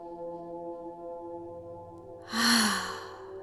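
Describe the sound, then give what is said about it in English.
One slow, deep breath drawn in through the nose, a soft airy rush that swells and then eases after a stretch of steady, quiet tonal drone. “Breathing in through the nose, and out through the mouth”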